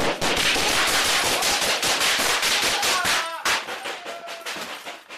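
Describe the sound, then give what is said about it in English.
Loud, rapid gunfire from officers exchanging shots with an armed man inside an apartment: many dense, overlapping cracks and bangs in quick succession, with no let-up across the burst. “The officers shot back.”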